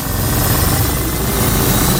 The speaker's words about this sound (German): Es geht wieder los. Seid ihr ready? Die Ego FM Zeitmaschine